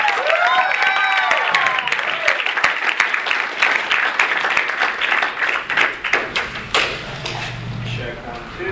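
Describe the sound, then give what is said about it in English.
Audience applause greets a speaker after his introduction: dense, steady clapping fills the whole clip and thins slightly toward the end, with a few voices audible early on. “Wes Woodell, give him a big hand.”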